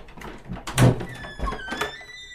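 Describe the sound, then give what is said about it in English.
A doorknob turning and a door opening into a UFO in a video game, a solid thunk followed by a few softer clunks, with faint tonal sounds lingering afterward. “We didn't use a laser torch. What'd you do? We turned this doorknob.”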